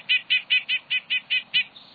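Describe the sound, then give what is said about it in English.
A nuthatch gives its insistent call: eight quick, evenly spaced high notes in a steady, clipped rhythm, followed by one fainter, softer note at the end. “nuthatch's insistent call matches its aggressiveness.”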